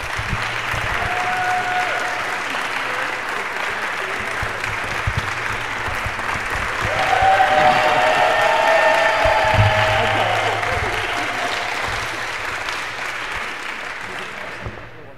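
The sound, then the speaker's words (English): Audience applause welcoming the mistress of ceremonies at an evening performance event, sustained clapping from a crowd that grows louder partway through and carries on to the end. “Let's give her a hand as she comes forward.”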